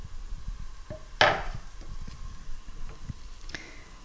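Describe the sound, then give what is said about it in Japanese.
A brief rustling clatter as leeks and shimeji mushrooms drop into about 10 g of butter in a pan over medium heat, followed by a few faint scattered clicks and taps. “バターを 10g ぐらい入れます。火は中火ぐらいで、長ネギとしめじをもう入れてしまいましょう。”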